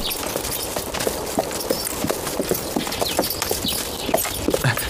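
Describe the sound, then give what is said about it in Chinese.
Horses' hooves clop as the animals are led out of a stable: many irregular hoof strikes over a steady background hiss, with no voices. “那个把我爹的坐骑牵过来。 是， 在这个厩里。 哎， 牵过来。 把我那小红也牵过去。”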